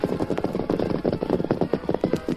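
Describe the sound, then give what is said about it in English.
Hoofbeats of several horses galloping through the night, a fast, steady run of many sharp clopping strikes that continues without pause and with no talk. “Three killers, tarantulas, rode through the night with the camp of the Lone Ranger as their destination.”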